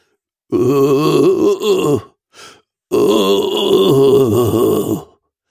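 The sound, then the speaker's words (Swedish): Eerie, drawn-out moaning from a dark figure shuffling into a half-dark room. A long, loud, wavering voiced moan is followed by a brief faint one, then another long moan, with no talk. “Hon hör någon som stönar.”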